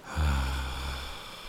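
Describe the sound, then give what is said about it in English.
An audible breath out through the mouth comes as a single long, quiet, sigh-like exhale with a low voiced hum, swelling quickly and then fading gently over about a second and a half. “And as you release out with me, release out through the mouth with an audible breath out.”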